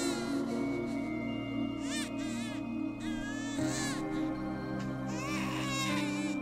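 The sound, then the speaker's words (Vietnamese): A baby cries shrilly at night: a few loud, wavering wails rise and fall over a steady, low droning bed of sustained tones. “Tiếng trẻ con khóc vang lên choe choé trong đêm ma mị.”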